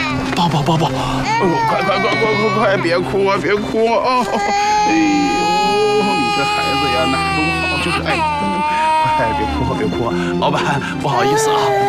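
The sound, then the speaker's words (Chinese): A little girl cries loudly, with sustained wailing sobs that rise and break throughout, set against a steady low background. “你怎么哭上啊？丫头，你别哭”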